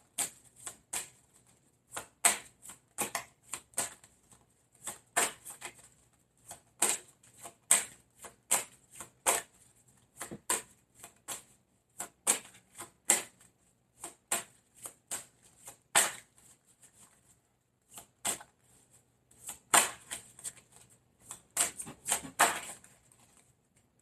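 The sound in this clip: Playing cards being dealt in a card game: many quick, crisp snaps and flicks in irregular bursts, some pairs and rapid clusters, moderately loud, with no talking.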